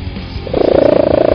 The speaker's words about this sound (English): This cat just set the world record for the loudest purr.